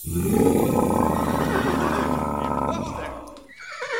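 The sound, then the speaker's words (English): A voice imitates the roar of a tyrant lizard with a loud, rough, growling cry held for about three seconds, then fades into a brief dip with fainter sound at the end. “What noise does the tyrant lizard make? Oh, I remember.”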